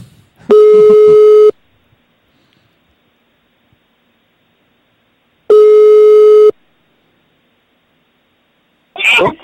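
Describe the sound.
Telephone ringback tone while waiting for an answer: two steady, one-second buzzing tones separated by a long silence, and then a voice begins at the very end.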